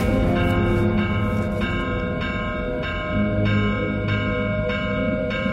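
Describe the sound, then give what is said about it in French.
A village church bell rings the tocsin alarm at midnight, raising the alarm over a missing person. It sounds as many loud, rapid, evenly spaced clangs with rich ringing overtones that overlap and sustain. “Vers minuit, l'abbé prévient le maire et lui demande l'autorisation de sonner le tocsin.”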